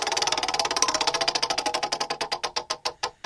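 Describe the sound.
A prize wheel spins with rapid, sharp ticking that gradually slows, the clicks spreading further apart as the wheel winds down.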